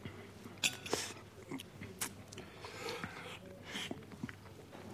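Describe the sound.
Faint eating sounds as someone has a served soup, with a few soft clicks and quiet mouth noises scattered through, over a low steady background.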